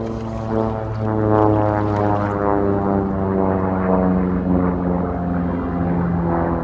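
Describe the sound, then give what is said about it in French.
Propeller engines of a combat aircraft approaching over the sea in 1939 give a loud, steady, continuous drone with strong harmonic tones. No voices are heard. “L'avion combat se rapproche.”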